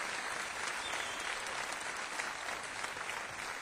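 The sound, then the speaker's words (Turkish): Audience applause welcomes a guest onto the stage at a live program: dense, continuous clapping at an even, moderate loudness from start to finish. “Kendisini alkışlarınızla davet ediyorum.”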